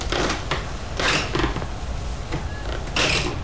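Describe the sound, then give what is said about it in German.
Firefighters force a house's front door open with a crowbar, making creaking, scraping mechanical noises and several sharp, loud bursts of strain and impact spread irregularly across a few seconds. “Jetzt machen ein paar Feuerwehrleute die Haustür mit einer Stange kaputt. Wie Einbrecher. Sie müssen ja irgendwie ins Haus hinein, wenn sie das Feuer löschen wollen. Um die Tür aufzuhebeln, haben sie ein Brecheisen.”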